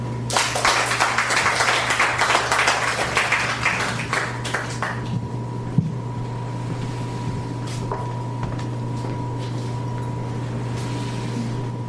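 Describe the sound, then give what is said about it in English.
Audience applause for a poet at a reading. Dense clapping is strongest for the first few seconds, then thins to a quieter, steady wash over a low constant hum. “As we give uh, Gwen Whitford another hand, let's welcome Tia Lund.”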